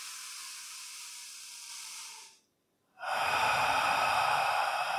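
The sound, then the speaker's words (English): Deep inhaling through the nose during a guided, eyes-closed breathing exercise: two long, airy, hissing breaths separated by a short silence, the second one louder and fuller. No one talks over the breaths. “I want you to keep the eyes closed and inhale up through the nose.”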